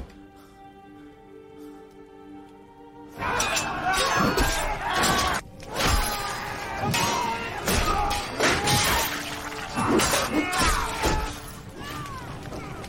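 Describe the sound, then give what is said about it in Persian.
A gate is smashed and breaks apart: after a quieter opening, a long run of loud crashes, heavy thuds and shattering impacts follows in irregular bursts, with splintering debris between the blows. “دروازه شکست.”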